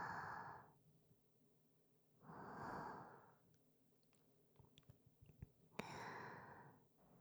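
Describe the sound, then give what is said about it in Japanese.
Soft breathing very close to the microphone: three slow, airy breaths that swell and fade with long pauses between them. The sound is very quiet, with a few small mouth clicks in the gaps. “私の呼吸、聞こえますか？”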